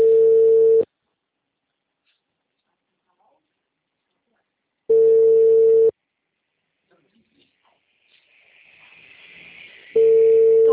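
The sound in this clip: A WhatsApp call tone sounds as a steady mid-pitched beep about a second long, repeated three times at even intervals with silence between.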